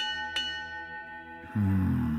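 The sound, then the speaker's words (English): Bell strikes ring out one after another along a path: two clear strikes, each leaving a sustained, humming ring. The second strike is louder and fuller than the first. “20 yards, another bell. 20 yards, another bell.”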